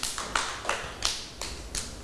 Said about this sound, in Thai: ยอดเยี่ยมเลยค่ะปรบมือให้น้องสแตมหน่อยค่ะ